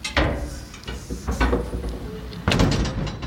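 The door of an outback dunny is opened with a few knocking thuds and clattering rattles, ending in a louder bang.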